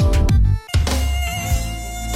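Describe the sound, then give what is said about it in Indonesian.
Mosquito buzzing close to the ear, a continuous whining drone with a thin high edge that briefly drops out partway through before resuming at full strength. “Saat sedang terbang hendak menghisap darah, nyamuk akan berkeliaran mendengungkan suara di sekitar telinga yang cukup mengganggu.”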